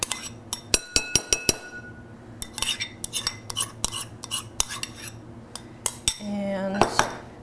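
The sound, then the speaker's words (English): A spoon clinks against bowls while yogurt is divided onto pasta, making many sharp, irregular metallic clicks and taps with short pauses between them. “I'm gonna divide the yogurt between the two bowls and just put that directly on top of the pasta.”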